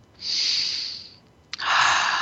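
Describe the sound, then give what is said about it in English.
Deep breaths taken during a guided relaxation exercise: two long, soft, airy breaths, each swelling and fading, separated by a short pause and a small click, with no talking. “Take a couple of deep breaths. Viva la breath, hey?”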